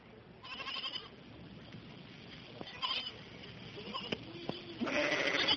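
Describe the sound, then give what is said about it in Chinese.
Sheep in a flock bleat faintly in open fields at night, where shepherds keep watch. Scattered wavering cries rise over a steady, noisy outdoor wash that grows louder toward the end. “当晚在伯利恒的野外有一群牧羊的人轮流看守羊群。”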